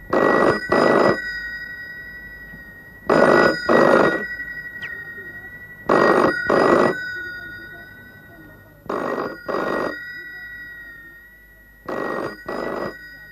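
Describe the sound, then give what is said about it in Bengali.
A telephone bell rings in five separate bursts. Each burst is a pair of bright, trilling rings, with steady pauses between bursts, and it sounds fairly loud and alone. “আরে phone পাচ্ছে।”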